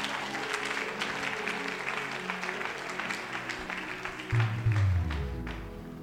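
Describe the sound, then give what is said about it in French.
A church audience applauds: dense, sustained clapping fills the whole clip at a moderate level, with no clear break. “On acclame Dieu pour nos parents.”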